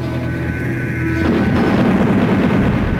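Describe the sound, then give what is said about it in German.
Gravity bombs exploding in a space battle: a steady low hum gives way to a loud, sustained roaring rumble that continues to the end. “Feuer! Gravitationsbomben ab!”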